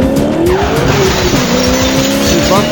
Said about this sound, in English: Wait, here comes Ed in his Camaro. He is burning rubber look.